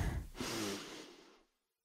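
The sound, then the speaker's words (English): A deep inhale taken together during a gratitude breathing moment: one long, breathy draw of air that gradually fades out and is followed by silence. “Let's inhale together,”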